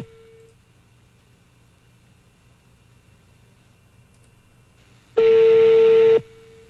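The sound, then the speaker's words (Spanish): Telephone tone after a rejected call: a brief steady beep, a long near-silent pause, then a loud one-second tone with a harsh buzzing edge that cuts off abruptly. “Le colgaron. Ya rechazaron la llamada y todo.”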